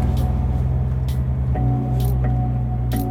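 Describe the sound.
Car engine humming while driving through city streets along Kongensgata and Karl Johan, a steady low droning rumble with a few brief hissy bursts over it.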